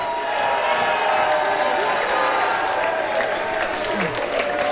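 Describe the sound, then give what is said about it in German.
Fans cheer and applaud as Switzerland wins against Norway, a dense, steady roar of crowd noise with a voice talking over it. “Der Jubel, wir können nicht mehr bremsen. Die Schweiz siegt, ganz klar. Und grosse Freude. Riesige Freude, auch ohne den Fischi.”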